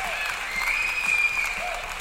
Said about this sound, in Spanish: Aplausos para él.